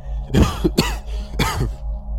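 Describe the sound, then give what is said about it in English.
Weak, strained coughing from a man who has fallen to the ground, his face burnt and pale: a few rough, breathy coughs in quick succession with short pauses between, moderately loud and without speech. “Sebastian falls to the ground, coughing, looking at his staff weakly, saying between coughs”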